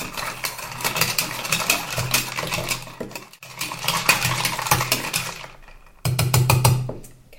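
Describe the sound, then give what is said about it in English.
Ice clinks and rattles as a cocktail is stirred rather than shaken: many quick, light clinks in steady stretches broken by two short pauses, over a faint low hum. “I'm just going to give this a stir rather than a shake, because it's such a pretty colour.”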